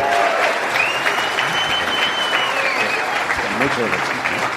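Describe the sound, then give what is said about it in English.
Audience applause for President Fox at an event: dense, steady clapping that fills the whole stretch, with a voice briefly audible near the end. “Let's hear it for President Fox. Thank you.”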